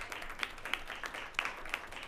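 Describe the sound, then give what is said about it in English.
An audience gives a round of applause at a welcome-week gathering. The clapping is faint and loose, with a few sharper claps rising above a soft, steady patter. “I wanted to give a round of applause to the Department of Programming as well”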